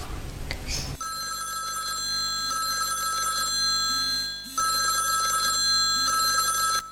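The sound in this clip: Telephone ringing while a call is being placed, after a short noisy rustle: a steady electronic ring tone sounding in repeated bursts with brief pauses between them.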